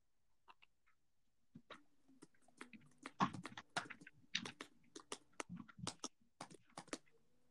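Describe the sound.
Typing on a computer keyboard, many quick, light key clicks in uneven bursts with short pauses, fairly quiet and with no talking.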